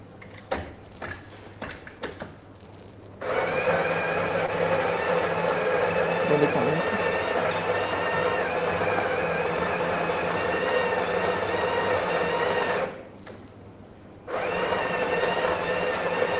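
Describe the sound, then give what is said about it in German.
An espresso machine brewing coffee gives a steady droning pump whine that runs for about ten seconds, cuts out briefly and starts again. People talk before the machine starts. “So, da sehen wir schon. Du lässt ziemlich viel Kaffee raus. Das ist mir nämlich auch schon aufgefallen, als du unsere Maschine eingestellt hast.”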